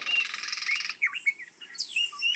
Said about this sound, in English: You'll hear one shriek coming out every now and again, like a quee type of shriek. And that is the call of the golden-tailed woodpecker.